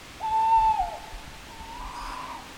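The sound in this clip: Owl hooting at night among leafless birch trees under a starlit sky: one clear, steady, mid-pitched hoot, then a fainter, wavering call after a short pause.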